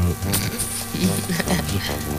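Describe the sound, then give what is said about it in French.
A buzzing bee, a steady droning hum that holds at an even, fairly loud level through the whole short clip. “puisqu'on parle de ce petit buzz qu'on entend dans les oreilles”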